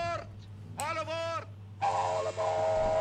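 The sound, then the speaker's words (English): Chiming whistle of an animated circus train, three voice-like harmonic tones: a short one, a wavering middle one, then a long steady one. A constant low hum runs underneath. “See, that's the train chiming”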